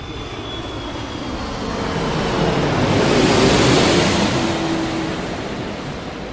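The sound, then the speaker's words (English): Low, loud aircraft passing overhead: a broad roar that swells steadily to a peak just past the middle, then fades. Throughout, it sounds like rushing wind or surf, with no voices. “So that was a bit low, that was aircraft. A bit loud.”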